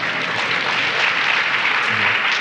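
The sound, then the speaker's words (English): Applause from an audience at a live talk event, a short, loud, dense burst of clapping that stays even throughout with no voices over it. “well, that was applause from the anti-dog faction.”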